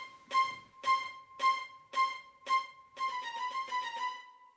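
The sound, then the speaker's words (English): A programmed string part built from short sampled string notes: five evenly spaced, detached notes, then a quicker run of repeated notes. Each has a distinct attack, giving a mechanical feel, and all stay close to one pitch. “if you were just going to use a short string sample, it would sound like this.”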